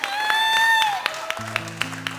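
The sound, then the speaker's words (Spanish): Audience applause requested for a daughter who became her school's flag-bearer. A held vocal tone comes first, then sharp, distinct claps at a moderate level. “Pero yo les pido un aplauso porque mi hija salió abanderada de su escuela.”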